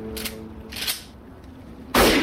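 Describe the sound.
A single loud gunshot kills a man in a film scene. It cracks out sharply near the end, after a few quieter rustling sounds.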